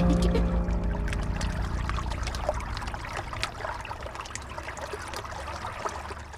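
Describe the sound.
Water flows along the bank of the Loire at Rochecorbon, upstream of Tours, on a frosty winter day. A steady, soft wash of running water carries scattered small trickles and splashes, with a low hum at the start.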